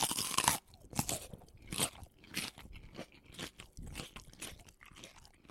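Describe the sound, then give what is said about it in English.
Someone bites into crunchy food and chews it, producing many quiet, crisp crunches in an irregular rhythm, with the first bite the sharpest. “Well, let's bite in. I mean, like, what does it taste like?”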